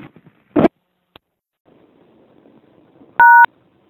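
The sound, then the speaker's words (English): A number is dialed at a payphone: a sharp clunk and a faint click, then quiet hiss, then one clear two-tone keypad beep near the end. “Well, I obviously dialed the wrong number. Standing out here at a payphone trying to reach a certain person,”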